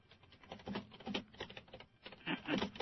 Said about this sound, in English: Sorry, I type loudly.